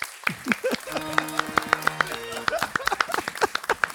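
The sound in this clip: Studio audience clapping, a dense patter of many sharp hand claps that holds steady throughout, with voices briefly mixed in near the start.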